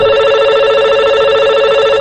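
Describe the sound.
A telephone rings for a listener call-in, giving one steady electronic ring with a bright, buzzy tone that lasts about two seconds before cutting off abruptly.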